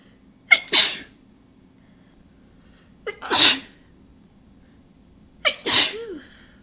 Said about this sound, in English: I still feel a few more. Too many sneezes.